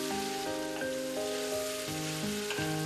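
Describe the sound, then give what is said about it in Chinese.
Sizzling from duck meat and duck blood stir-fried on high heat in a wok with a sour liquid. A continuous crackling hiss runs throughout under a stepping melodic music line. “待鸭肉吸饱酱汁，再次回炉大火翻炒，让酸水、鸭血与鸭肉的融合达到极致。”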